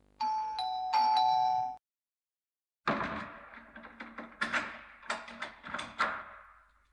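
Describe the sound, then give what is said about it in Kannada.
A doorbell rings with a loud two-note electronic chime, the second tone held longer. After a short silence, a run of clicks and knocks follows. “ಅರೆ ಒಂದ್ ನಿಮಿಷ, ಯಾರೋ bell ಮಾಡ್ತಾ ಇದ್ದಾರೆ,”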